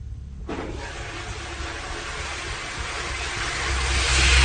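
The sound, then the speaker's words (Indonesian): Water tap running in a bathroom: a broad rushing hiss that starts abruptly after a short quiet moment and grows louder toward the end. “aku mendengar lagi suara keran yang menyala.”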